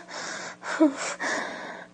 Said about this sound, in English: You love the way I'm moaning, don't you? You just love my, my little gasps and